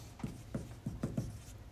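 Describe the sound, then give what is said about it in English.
Writing on a board makes five short, soft scraping strokes in quick, uneven succession, faint against a steady low background. “So I'll write it up here on the board.”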